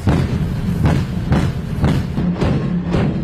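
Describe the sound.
A naval main gun on the warship Pingdingshan fires continuously at an aerial target. Heavy booming shots come in a rapid, even series about every half second, loud and without voices.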